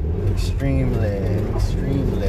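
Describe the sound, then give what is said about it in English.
A car drives while it snows outside, its steady low engine and road rumble running continuously beneath a person talking. “It's snowing outside, so I'm driving”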